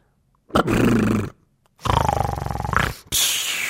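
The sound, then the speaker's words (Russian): Loud snoring that sounds like a tiger roaring comes in three long rasping, growling bursts separated by short pauses. The last burst is cut off. “«Когда они услышат его храп, то подумают, что рычит тигр, и не решатся войти».”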